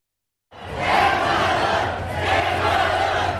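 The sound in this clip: A football stadium crowd at Germany vs Ecuador roars loudly after a moment of silence, a dense, sustained wash of cheering and shouting that swells and holds steady to the end.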